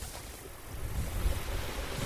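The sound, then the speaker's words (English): Small waterfall cascading out of a beaver dam on a creek that flows from a wetland, a steady, broad rushing wash of water that holds an even level throughout, with slight surges near the middle. “We reach a small creek flowing out from the main wetland. A small waterfall cascades out of a beaver's dam.”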